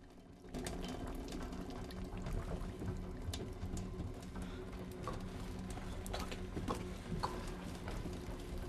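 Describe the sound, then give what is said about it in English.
Water trickling into a boat's hull through four closely grouped bullet holes: a faint, continuous bubbling wash with irregular small drips and clicks that begins after a brief quiet moment and runs steadily to the end. “Water's starting to trickle in through the four closely grouped bullet holes.”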